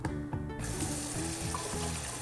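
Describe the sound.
Hands are washed under a running sink tap: a continuous, fairly faint stream of water splashing steadily throughout, with no voices.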